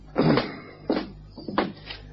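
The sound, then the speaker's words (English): A bag of grain is opened with three short rustling, crumpling bursts separated by brief pauses, over a faint low hum. “Here's the grain, sir. Well, there's the bag open.”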